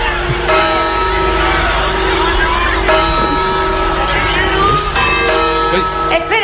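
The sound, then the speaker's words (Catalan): A church bell chimes at midnight, sounding a few ringing strikes that hang and overlap above a steady crowd murmur while people talk. “Atenció, atento, campanada!”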